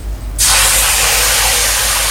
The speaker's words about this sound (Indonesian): Aduh, kecipratan minyak panas nih. Aduh, perih.